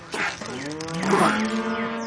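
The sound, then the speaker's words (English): A heifer moos while being pushed into a stall, letting out one drawn-out, throaty, tonal low that swells in the middle and holds to the end. “Why won't this dumb heifer go in the stall? You pull on the rope and I'll push from behind.”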